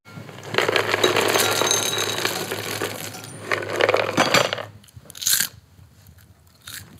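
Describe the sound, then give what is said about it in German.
Crunchy caramelized homemade popcorn is chewed in loud, crackling bites: one long crunching stretch, then a shorter burst and a brief final crunch, with quiet gaps between. “Das klang so... Nach rohem Mais. Nein, das ist schon durchkaramellisiert. Wow, das wird wirklich ein besonderes Popcorn. Crunchy scheint mir.”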